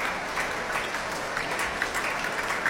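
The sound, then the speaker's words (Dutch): A grateful concert audience applauds two performers on stage by the stairs, a steady, even patter of many hands that stays fairly soft throughout, with no voices rising above it. “Afscheid nemen van een dankbaar publiek dat hier op het podium, naast de trap, opnieuw weer applaudisseert voor deze twee.”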